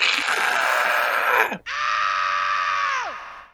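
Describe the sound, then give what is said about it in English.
A man screams loudly into a studio talkback microphone so it can be sampled. Two long, loud, sustained screams, the second a steady tonal wail. Each ends with a pitch that drops sharply. “I want you to scream real loud. You know, I go, okay. So I went,”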